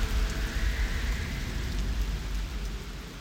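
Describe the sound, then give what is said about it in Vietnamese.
Heavy, steady rain in wind and rainy weather, a dense continuous patter over a deep low rumble, slightly louder at the start, with no voices. “Trời mưa gió quá”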